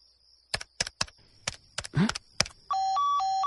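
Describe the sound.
A telephone number is dialed: a series of sharp button clicks, then a steady, pulsing electronic tone that alternates between two pitches.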